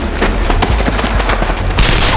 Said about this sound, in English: Anya ducked instinctively as a ricocheting bullet flew past her ear.